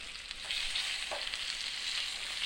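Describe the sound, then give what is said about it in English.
Food sears and sizzles in a hot pan, making a continuous, fairly faint bright hiss with a couple of brief crackles rising out of it. “All right, we're getting a good sear on this stuff, folks. That's a quality sear right there.”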